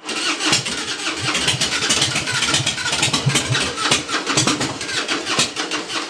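An engine starts and settles into idle after the start button is pressed while in neutral. A loud, rough, continuous chugging with rapid uneven pulses runs for about six seconds, with no voices over it.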